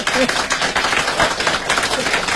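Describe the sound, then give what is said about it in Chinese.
Audience applause at a live comic duo stage performance: dense, steady clapping fills the whole stretch at an even, fairly loud level, with faint voices mixed in. “大家给他鼓鼓掌，喝。”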